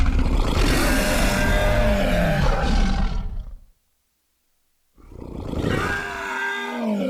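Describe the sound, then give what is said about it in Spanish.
A fictional creature's roar, blended from a human actor, a bear and a tiger, bursts out in two loud, long, rasping roars separated by a gap of silence. The first lasts several seconds and the second is somewhat quieter. “Es un actor, un oso y un tigre.”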